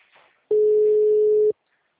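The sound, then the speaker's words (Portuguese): A telephone ringback tone signals a call ringing unanswered: one steady, mid-pitched tone lasting about a second, then silence. “Tá chamando já bastante? Acho que ela não vai atender, não.”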